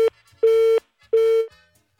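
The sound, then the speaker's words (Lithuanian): Busy tone on a phone line after a caller's call dropped: steady mid-pitched beeps in an even on-off rhythm, loud and alone, with no voices. “Gaila, nutrūko ryšys. Nebeišgirdom klausytojo telefono numerį”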